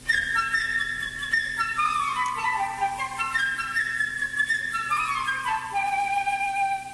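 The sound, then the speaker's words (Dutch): A flute plays the little bird's part in an orchestral children's tale, a high, nimble melody of quick runs and trills, fairly loud and unbroken over a soft accompaniment. “Het vogeltje bijvoorbeeld is de fluit.”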